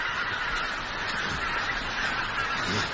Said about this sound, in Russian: Гуси. Гуси